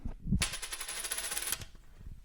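A coin is tossed to decide between two contest entrants, giving a faint bright metallic ringing about a second long with a thin high tone above it.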